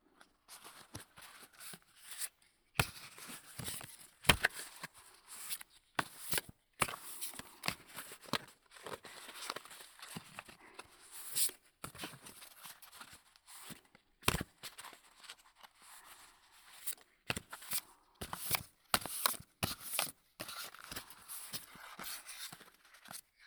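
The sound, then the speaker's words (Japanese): A deck of playing cards is handled in a Hindu shuffle on the right side, making many soft, crisp snaps and papery slides in quick, irregular runs, quiet and without talk. “それじゃあ早速右耳からド定番のヒンドゥーシャッフル。”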